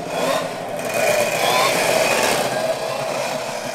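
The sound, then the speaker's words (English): High-horsepower two-stroke and four-cylinder race car engines pump along together on a dirt track before a heat race, making a loud, continuous droning roar that stays steady throughout. “can you hear those high horsepower two strokes and those four bangers in there just pumping along?”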